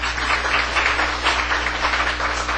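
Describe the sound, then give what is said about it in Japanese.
A church audience applauds its Sunday school teachers with a steady wash of many hands clapping. The sound stays even and moderately loud from start to finish. “それでは拍手を持って”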